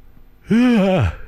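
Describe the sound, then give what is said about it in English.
A loud voiced yawn, heard alone: a single drawn-out breathy sound of about half a second whose pitch rises at the start and slides down at the end. “I'm just going to yawn loudly on air for a moment.”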